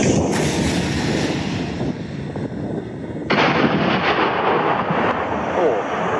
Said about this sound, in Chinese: 全号装药，所以发射的时候这个声音要比刚才打箭瞄的时候大了很多，而且击中山体之后这种爆炸声，然后带着这个震动